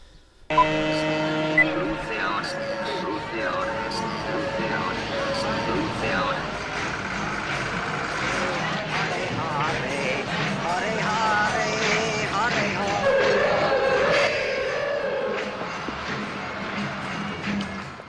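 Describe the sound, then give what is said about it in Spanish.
Busy city street ambience with traffic and a crowd: a dense, continuous wash of overlapping voices and traffic noise that stays steady and fairly loud throughout. “Y esto es el sonido de la calle, ¿no?”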